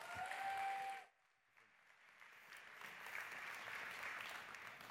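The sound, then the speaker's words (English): Church audience applause welcoming a guest speaker: a voice comes first, then after a short lull faint clapping swells into steady, even applause. “And so would you please give a warm New Life East welcome to Dr.”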